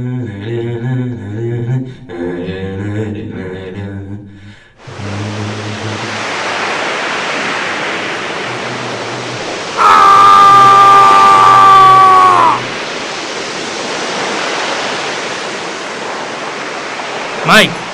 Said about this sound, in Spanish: Se escucha la voz de Mike y se oye un fuerte movimiento en el agua